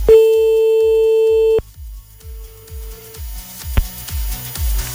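An outgoing telephone call rings with a steady, clear tone lasting about a second and a half, then a fainter return of the tone, all over a pulsing rhythmic background beat.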